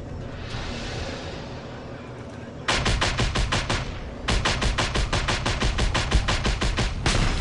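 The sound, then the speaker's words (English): Rapid gunfire in a combat video game: a steady noisy stretch, then loud bursts of closely spaced shots, with no talking. “Is that a shotgun?”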